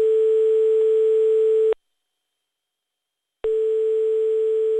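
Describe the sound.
A telephone ringing tone while calling someone: a steady, mid-pitched electronic tone that sounds, cuts to silence, then sounds again.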